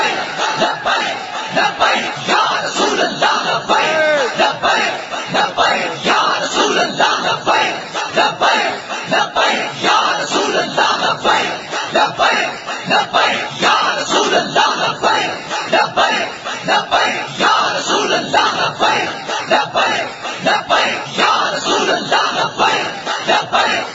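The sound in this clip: A large crowd shouts the Labbaik slogan in loud, forceful unison, the chant returning in many rhythmic bursts that keep a steady pulse from start to finish.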